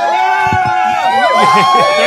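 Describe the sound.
A live audience at the Rainbow cheers and whoops loudly, a steady wash of crowd noise with high shouts and whistles running throughout.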